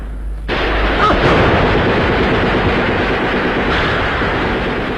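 Gunfire and artillery in a battle: a dense, continuous roar of blasts and shots bursts in abruptly after a brief quiet start and holds loud and unbroken to the end.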